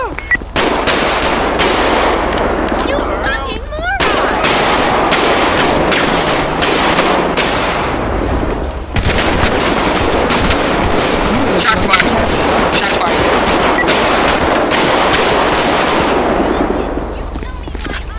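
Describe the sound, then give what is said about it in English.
Heavy gunfire from a police shootout with a bank robber outside the back of a building: many rapid, loud cracks and bursts run almost continuously for about eighteen seconds, with only a brief lull near the middle. “Shot! What's going on? Shots fired, outside the back.”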